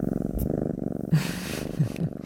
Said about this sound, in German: Also ja, das war mein Kater, dem ging's ja ganz gut, das kann ich dir schon mal sagen.